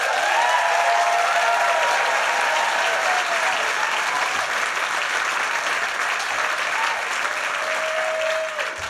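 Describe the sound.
Applause rises from an audience welcoming the band Rising Appalachia back to the stage, a dense, continuous wash of clapping that holds steady and loud before easing slightly at the end.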